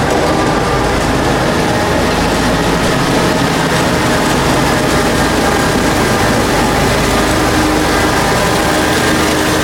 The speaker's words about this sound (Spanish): Y arranca la Zamboni de Eric